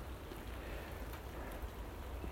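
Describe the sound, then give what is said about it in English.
Faint, steady hiss of raindrops falling into water and making small ripples, a soft continuous patter with no distinct individual hits. “no matter how I protect it here, the little ripples that occur are occurring all the time as raindrops get in.”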